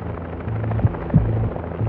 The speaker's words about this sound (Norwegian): Nå sitter de i et helikopter over Skagerrak.